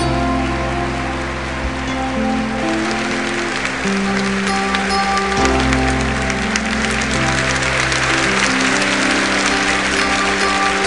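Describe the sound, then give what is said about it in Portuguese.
Applause from an audience at a church preaching service, dense, continuous clapping that holds steady for about eleven seconds over sustained instrumental tones. “Vamos aplaudir a palavra de Deus.”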